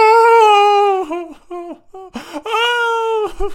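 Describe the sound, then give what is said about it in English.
A voice imitates wailing, uncontrollable weeping: a long, loud, steady high-pitched wail, then a few short broken sobbing bursts, then another sustained wail ending in a brief catch of breath. “So there's like wailing.”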